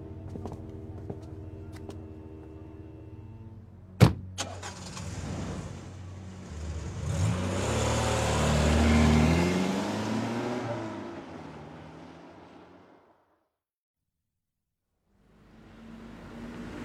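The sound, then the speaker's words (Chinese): A car drives away from a boutique toward an apartment. A sharp click comes first, then a low, rushing engine rumble swells to a peak and fades into silence before a quieter rumble returns. “离开精品店，金枝开车送惠里回到他的公寓”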